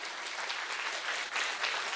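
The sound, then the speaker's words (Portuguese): Applause from a church audience at the close of a service blessing: a steady, dense patter of many hands clapping at an even level throughout, with no voices over it. “Uma salva de palmas.”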